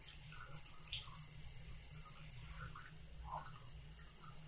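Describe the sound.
Water pouring in a bath to rinse someone off, a faint, steady stream running throughout with small splashes and no voices.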